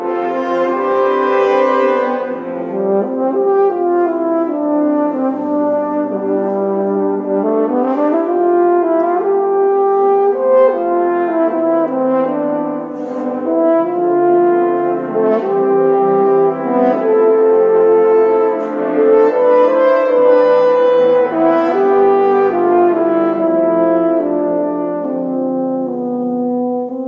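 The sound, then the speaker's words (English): A horn choir with a solo horn plays a slow, lyrical passage: warm, sustained brass chords beneath a gently rising and falling melodic line, continuous and full throughout with no talking. “One example for me is my piece Harvest Light for horn choir and solo horn.”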